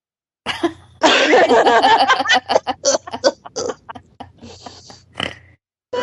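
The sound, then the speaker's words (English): A person snorts while laughing, giving pig-like snorts mixed with coughing breaths. A dense burst of sharp snorts comes in quick succession, then thins into a few softer, spaced-out bursts. “Who did I make snort? I'm sorry.”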